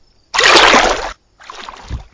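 A person falling into water makes a loud, broad splash, then a quieter sloshing of water a moment later.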